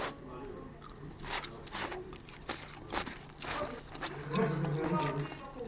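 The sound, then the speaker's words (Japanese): Bites into crunchy deep-fried horse meat, karaage made from fresh sashimi-grade horse, many crisp crackling crunches of varying loudness with chewing noises between them. “本当に馬刺用のもう馬肉を唐揚げにしてあるっていうことなんで、お肉も新鮮なんですね。いただきます。”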